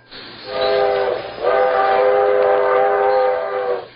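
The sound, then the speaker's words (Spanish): A departing train sounds its horn in two loud, steady, chord-like blasts, a short one and then a much longer one. No voices are heard. “Ya se va el tren.”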